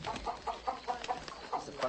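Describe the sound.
Ducks aboard a boat give a rapid series of short, nasal calls in a fairly even rhythm at moderate loudness, with no talk.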